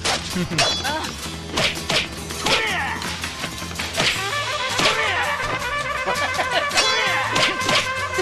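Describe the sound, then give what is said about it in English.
Video game sword strikes made with the blunt side of the blade as characters hit people. Many sharp thwacks and whacks come in quick succession over loud, busy game music. “Or you can take just about any sword and flip it around to the blunt side and hit people with that. And it sounds like this.”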